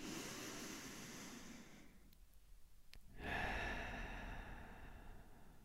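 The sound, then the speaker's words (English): Slow deep breathing: a long soft inhale through the nose, a brief pause, then a fuller, stronger exhale through the mouth, quiet and steady with no talk. “Let's take a deep breath in through our nose and a deep breath out through our mouth.”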